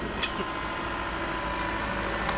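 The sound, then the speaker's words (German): A bus from Eichstätt approaches with a steady, low engine rumble that holds an even level throughout, with a faint brief rattle near the start and end. “Da nähert sich auch schon ein Bus aus Eichstätt mit Verantwortlichen der Diözese für diese 72-Stunden-Aktion.”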